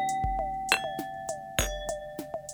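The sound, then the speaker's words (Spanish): A small metal tube strikes glass bottles partly filled with water, giving many light, crisp clinks at an uneven pace, each leaving a ringing tone, the bottles sounding at different pitches. “en vez de soplar, se puede golpear las botellas con un tubito metálico.”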